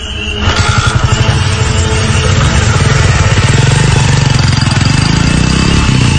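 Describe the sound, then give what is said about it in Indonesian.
A motorcycle engine starts up and settles into a loud, steady idle with a rapid, even pulsing rhythm that continues without talk. “aku pun segera menyalakan motorku dan langsung memutuskan untuk pulang”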